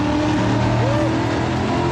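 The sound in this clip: An American car's engine roars through a tunnel, a loud, dense, rumbling drone with steady harmonic tones that fills the whole two seconds without a break.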